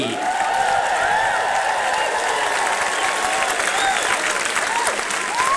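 An audience at an evening celebration applauds to welcome performers to the stage: dense, steady clapping that holds loud throughout, with some whistles and cheers.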